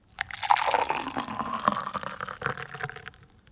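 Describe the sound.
Coffee being poured: a continuous liquid splash and trickle that builds quickly, holds for a few seconds and then tapers off.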